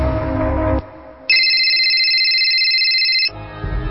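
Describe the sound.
An outgoing phone call rings as a single steady, high electronic tone held for about two seconds, set between stretches of other sound before and after.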